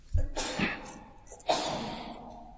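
A sneeze during a lesson on ritual washing: two sharp, breathy bursts, the second louder and noisier, trailing off into a soft hiss.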